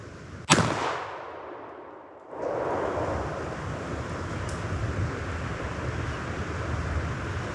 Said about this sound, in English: Yep, we got him. Boy, that was a long shot. That was a good shot.